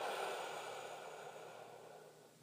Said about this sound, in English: And one more time, a big deep breath in, and letting it flow out.